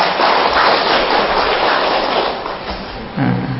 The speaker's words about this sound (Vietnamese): Rồi đúng, cho chàng pháo tay.